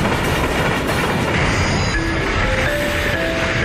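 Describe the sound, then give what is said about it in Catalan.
A Rodalies commuter train arrives on a line troubled by a burnt overhead catenary, producing a loud, continuous rolling rumble and rattle, with thin high wheel squeals rising out of the noise toward the end. “Ostres, normalitat al servei. Un altre dia que es crema la catenària i el Rodalies arriba 2 hores tard.”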